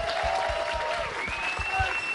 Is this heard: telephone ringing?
no